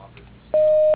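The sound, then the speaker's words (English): The voicemail tone before recording a message: a single steady electronic beep of medium pitch, loud and lasting under half a second, after a moment of faint line hiss. “You've reached the voicemail box for Dr. Gretchen Peterson. Please leave your name, your number, and a message after the tone.”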